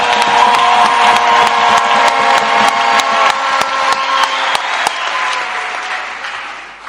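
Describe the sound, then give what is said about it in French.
Crowd applause with cheering breaks out in dense, sustained clapping at a steady loud level, thinning and fading slightly toward the end. “Acclamons-le alors. Mungikie kumikono.”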